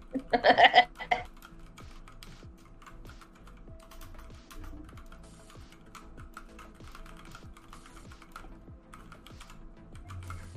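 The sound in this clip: Typing on a computer keyboard: many quick keystroke clicks in a steady, uneven patter that runs throughout, after a short, louder burst of voice at the very start.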